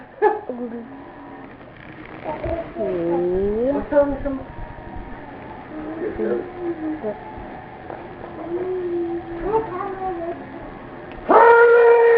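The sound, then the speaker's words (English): A pet dog howls and yips, its long tonal howls wavering up and down in pitch, broken by shorter yelps and whines, with a sudden louder burst at the end. “You're a good puppy, dog. He won't come down with you guys. No. Get down. Damn it! He's scary. Now be careful. He'll be nice. He's my doggy.”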